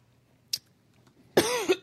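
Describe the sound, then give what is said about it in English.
Coughing from someone choking on their own spit: a brief sharp cough, a pause, then a harsh, strained burst of voiced coughs and splutters. “Excuse me. Gosh, she got all choked up. Wow. Choking on my spit.”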